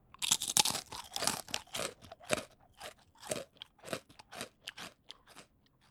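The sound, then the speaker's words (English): Teeth crunching through fried prosciutto tortellini make many sharp, crackly crunches in an uneven chewing rhythm. The bites are loudest and brightest at the start and stay clear throughout, with no talk. “What you hear is my teeth crushing the tortellini, and this is called crunching.”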